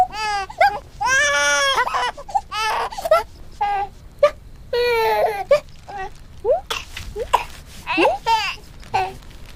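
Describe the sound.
A small child cries hard while being soothed, in repeated high, wavering wails and sobs broken by short gasping pauses. The crying stays loud and insistent throughout.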